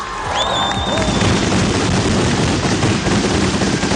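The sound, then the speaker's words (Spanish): Firecrackers of a Valencian-style mascletà display burst in the sky over Madrid, a loud, dense, continuous crackling barrage, with a high whistling tone at the start. “Y la masqueta fue como se preveía, todo un éxito y un auténtico espectáculo en ese cielo madrileño con sabor valenciano”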